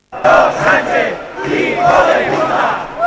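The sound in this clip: Protest crowd chanting at a rally in Catalonia against the Pedro Sánchez government: many voices shout loud, rhythmic phrases together in repeated bursts that swell and dip with the chant.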